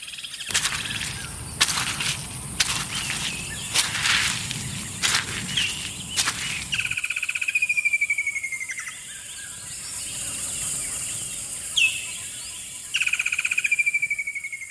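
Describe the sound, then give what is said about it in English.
Forest ambience with birds and insects on a walk: several sharp, crunching steps fill the first half, then repeated descending bird whistles and chirps ring out over a steady, high insect hiss. “Nature Valley invites you to take a minute to re-energize with the sounds of nature, starting with this walk through the forest.”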